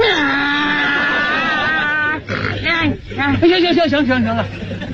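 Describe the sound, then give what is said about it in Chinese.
A human voice imitates a donkey braying: loud, strained, wavering voiced cries that bend up and down in pitch, with a harsh bray-like burst after a drawn-out, descending opening sound. “到现在我连驴叫我都能学。你要不信，我给你学学。”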